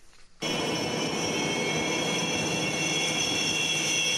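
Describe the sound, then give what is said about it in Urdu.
Russian jet aircraft taking off from an aircraft carrier, a loud steady jet roar with a high, constant whine. It begins abruptly after a brief quieter moment and then holds at full strength to the end. “روسی جت طیارے شامی شہر حلب کے باغیوں کے قبضے والے علاقے پر فضائی حملوں کے لیے ایڈمرل کوزنسٹوف نامی طیارہ بردار جہاز سے پرواز کرتے ہیں۔”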